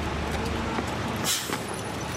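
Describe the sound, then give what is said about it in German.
School bus arriving at a school building in a mountain area: a steady low engine rumble with a brief sharp hiss near the middle. “Der Bus, der am Morgen Schülerinnen und Schüler in der Gegend einsammelt, kommt nahezu leer am Schulgebäude an.”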